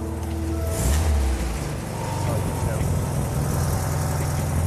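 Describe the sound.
A car engine runs steadily with a low, continuous rumble as the accelerator is held down, on a car with a suspected charging fault despite a new battery. People talk over the engine throughout.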